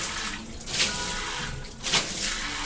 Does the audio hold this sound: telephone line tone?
no

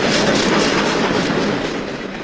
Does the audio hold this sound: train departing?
yes

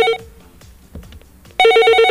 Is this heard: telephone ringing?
yes

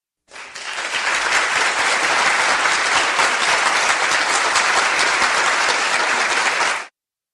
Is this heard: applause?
yes

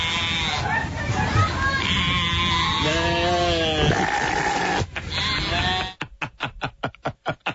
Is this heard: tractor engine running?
no

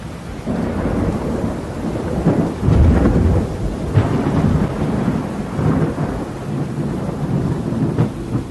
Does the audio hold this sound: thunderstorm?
yes

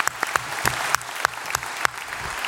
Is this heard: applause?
yes

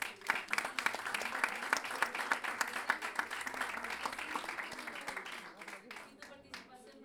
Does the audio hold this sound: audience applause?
yes

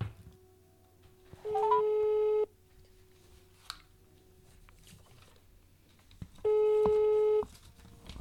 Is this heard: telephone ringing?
yes

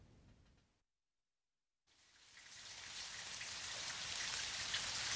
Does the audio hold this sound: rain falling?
yes

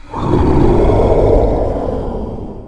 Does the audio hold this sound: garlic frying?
no

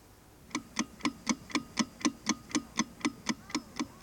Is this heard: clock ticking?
yes

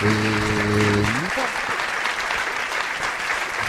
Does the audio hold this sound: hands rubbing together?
no

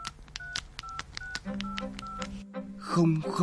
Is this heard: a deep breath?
no

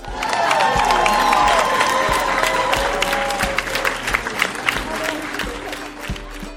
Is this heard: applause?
yes

